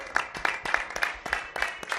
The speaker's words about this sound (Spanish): Bueno, le podemos dar una ovación al torero, ¿eh?